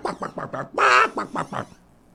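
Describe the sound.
A chicken sound effect plays a few quick, throaty clucks, then one long, loud squawk, then a few more clucks.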